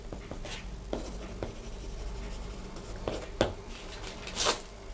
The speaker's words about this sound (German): Schreib den Scheck aus.